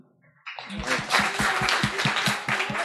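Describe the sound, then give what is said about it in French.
Loud applause from an audience thanking the speakers and illustrators at a gathering held in a basement. It bursts in after a short quiet start and stays dense and steady, with a regular low thumping pulse running underneath. “Alors un gros gros gros gros gros merci à tous nos intervenants. Sous vos applaudissements s'il vous plaît.”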